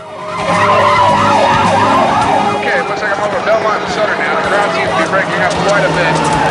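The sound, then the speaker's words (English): Police squad cars arrive on a city street with wailing sirens rising and falling over loud traffic noise. The sound is dense and sustained, with people talking over it. “Squad cars arrive.”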